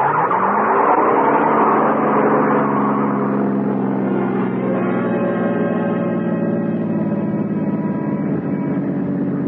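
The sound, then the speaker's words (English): A car driven fast roars along in a continuous, loud engine drone with a high, sustained whine. “You always drive this fast? Oh, you consider this fast?”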